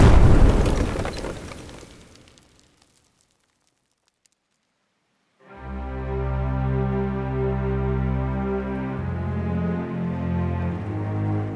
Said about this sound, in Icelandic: Þeir skjóta og einn hendir handsprengu.